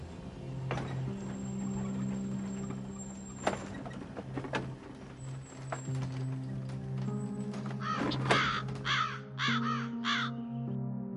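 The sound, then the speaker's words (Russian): A crow caws overhead, giving a few harsh, arched calls near the end over a busy background of steady hum and scattered clicks. “Над головой каркнула ворона.”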